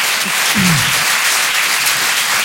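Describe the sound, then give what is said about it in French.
An audience applauds, with dense, even clapping that stays loud and steady from start to finish. “Est-ce qu'on peut faire du bruit pour toutes les mamans du monde, s'il vous plaît ?”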